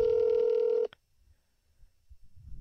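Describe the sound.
An outgoing phone call ringing on speakerphone: a single steady, mid-pitched ringback tone lasts under a second and cuts off abruptly, followed by near silence with faint low rustling.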